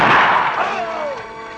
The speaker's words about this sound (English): Oh! She done shot me! Oh. And they shot him in the head.